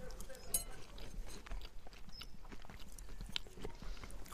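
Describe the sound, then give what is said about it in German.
Someone eats a warm, crumbly fall crumble: soft chewing and biting throughout, with a few sharper crunches, amid quiet speech. “komm, wir probieren äh, mal meinen Falls Crumble. das nicht in den letzten drei Minuten deutlich geworden ist, Triggerwarnung Essen.”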